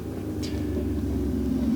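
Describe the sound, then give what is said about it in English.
An engine being revved, heard as a continuous low, rough rumble that stays loud and swells slightly near the end, with no talk. “Why do you have to rev your shit?”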